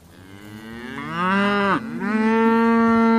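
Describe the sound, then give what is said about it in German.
A herd of about 250 black and light brown cattle with calves mooing on a pasture in Brandenburg: loud, drawn-out moos, one dipping sharply in pitch before giving way to a steady, sustained call. “Vor mir ist eine riesige Rinderherde. Da sind schwarze, hellbraune und dazwischen hüpfen ein paar Kälber rum.”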